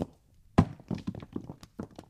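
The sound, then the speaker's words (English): Rocks piled up by animals to block a cave door make heavy stone thuds. One loud thunk is followed by several lighter knocks in an uneven rhythm. “As soon as the Monkey King goes into the cave, the other animals cover the cave door with rocks. The cave is closed.”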